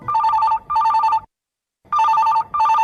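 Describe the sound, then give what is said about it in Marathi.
A telephone bell rings for an incoming listener call, loud and clear: two double rings, each a pair of bright, trilling bursts with a short silent pause between the pairs. “श्रोते हो, आता पुन्हा वळूया आपल्या श्रोत्यांच्या phone कॉल्सकडे.”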